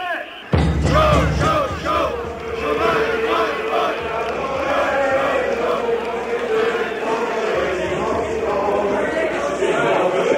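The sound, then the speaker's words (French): A crowd chants against unemployment during a late-1970s protest march on Paris that includes delegations from Longwy and Thionville. The rhythmic chanting of many voices starts abruptly after a brief quieter moment, then continues loud and unbroken over a low rumble. “Chômage, chômage, ras-le-bol, on commençait à l'entendre dans ces manifs de la fin des années 70, on allait l'entendre dans des quantités de manifs depuis. Donc ça, c'est la manif”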